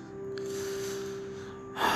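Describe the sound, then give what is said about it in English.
A deep breath drawn before speaking: a long, airy inhale over a steady low hum, ending in a brief, louder rush of breath. “with a deep breath and a happy voice.”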